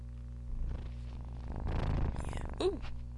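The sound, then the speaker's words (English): A young female kitten, under 16 weeks old, purring on a person's lap: a soft, steady, low rumbling purr that continues throughout at a faint level. “Here she is. You can hear her purring.”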